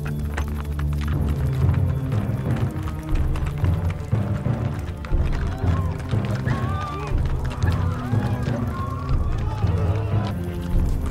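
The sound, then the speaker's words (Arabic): Hooves of a ridden horse running in a fast, steady rhythm that goes on throughout, under people talking. “كيف تجد الحصان؟ خير من البغلة؟ الآن أحس بأنني فارس هل أسرع به قليلا؟”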